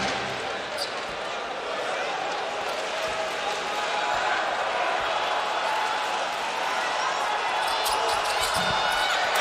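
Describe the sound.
A basketball bounces as Brown sets up a free throw in a game involving Shanghai, the thuds half-buried under a dense, steady crowd roar, with a commentator talking throughout.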